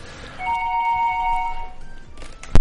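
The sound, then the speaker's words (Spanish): An electronic telephone ring signals an incoming call: a held two-tone warble, a brief higher beep, then a sharp loud knock at the end. “Ah, pues tenemos, tenemos llamada. Tenemos llamada. Vamos a ver quién, quién nos llama.”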